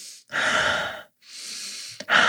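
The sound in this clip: Slow, deep breathing, in through the nose and out through the mouth: two long, steady breaths of airy rushing, each lasting most of a second, separated by a brief pause, then a sharper intake at the end.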